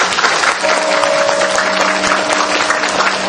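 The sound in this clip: An audience at a Buddhist temple gathering applauds a venerable monk with a steady burst of clapping that lasts about three seconds. The clapping is loud and dense and keeps an even level, with a faint steady tone running underneath.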